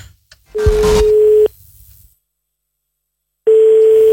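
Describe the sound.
A telephone line tone plays while calling out: a loud, steady mid-pitched tone lasts about a second with a noisy burst underneath. Roughly two seconds of silence follow before the same tone returns.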